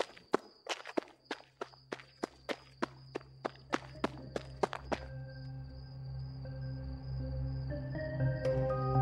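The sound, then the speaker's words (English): Footsteps of a limping jog across a street: many sharp steps land in a steady rhythm for about five seconds, then stop as a low droning tone and a swelling background carry on. “I jogged across the street. My legs hurt, so it was more of a limp jog.”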